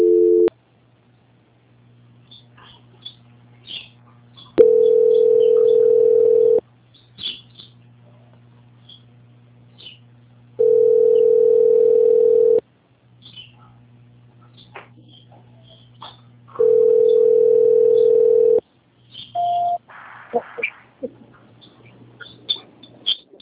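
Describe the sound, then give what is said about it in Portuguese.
A telephone tone plays while a call is being transferred: a steady mid-pitched beep lasting about two seconds repeats three times with roughly four-second gaps between. Faint clicks and chirps fall in the pauses. “só um momento que vamos transferir sua ligação novamente”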